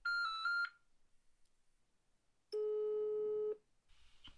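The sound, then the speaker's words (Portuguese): Telephone tones as a call is placed: a short, higher steady tone, then a pause, then a longer, lower steady tone, all faint and with no voices. “Tentar ligar mesmo assim. Vamos ver se ele vai atender a gente.”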